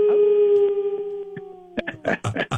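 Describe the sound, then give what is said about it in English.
A person howls in imitation of a wolf or dog, one long sustained tone that sinks slowly in pitch, followed by a burst of excited talk. “so give me the howl. Give me the howl.”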